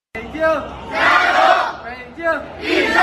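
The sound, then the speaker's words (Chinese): Members of the Beijing sports delegation chant together to cheer themselves on in the back area at an opening ceremony. Loud group shouts rise and fall in two rhythmic cycles. “在开幕式的后场区，北京体育代表团用这样的方式给自己加油。”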